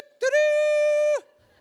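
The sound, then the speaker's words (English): A human voice imitating a trumpet, producing one sustained, buzzy note of steady pitch that lasts about a second and then slides slightly downward as it ends. “My trumpet sounds like this.”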